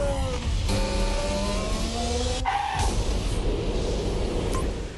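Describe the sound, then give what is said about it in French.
Formula One cars racing and crashing on the 2018 Baku city circuit as two teammates battle for position: a loud, high engine whine with tire noise throughout, broken by sharp crashing bursts, continuing steadily to the end. “Voilà, cet accident, c'était en 2018 sur le circuit de Bakou, justement.”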